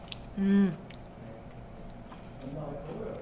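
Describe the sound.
Biting into and chewing a purple shortbread cookie that is firm but not too hard or crumbly: a few soft crunches and moist chewing sounds, with brief voice sounds nearby.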